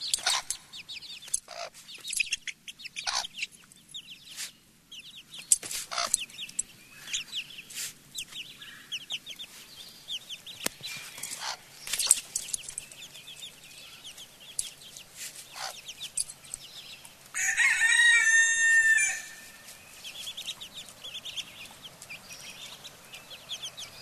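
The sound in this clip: A hen clucking in a played video about a mother hen protecting her chicks from danger: many short, sharp clucks scattered irregularly, then a longer, louder sustained call near the end.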